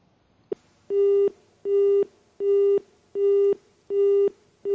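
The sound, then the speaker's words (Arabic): A telephone busy signal follows a failed phone call: a brief click, then an evenly spaced series of identical, moderately loud, steady-pitched tone pulses with short gaps, about six in all, with no voices. “اتصال فشل. نأخذ اتصال آخر.”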